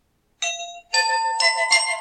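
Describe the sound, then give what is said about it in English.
A bright bell chime cues a listener-questions segment, ringing several clear tones in quick succession with no talk over it. “You know what that bell means. It's time for Jerry Arnold's questions.”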